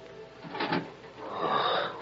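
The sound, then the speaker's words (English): A door to a room creaks slowly open in two drawn-out, grinding swells, the second longer and steadier than the first, with no voices. “And the door of the room creaked slowly.”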